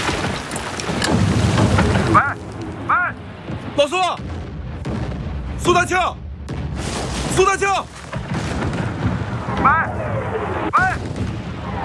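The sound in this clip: Enemy artillery shells a defended battlefield position in a continuous, loud roar of blasts and rumble, with voices shouting over it throughout.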